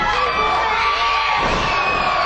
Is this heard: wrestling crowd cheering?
yes